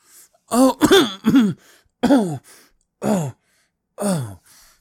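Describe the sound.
Throat clearing from a tickle in the throat: a man gives a series of several voiced, rasping ahem-like bursts in an uneven rhythm with short pauses between, fairly loud and alone.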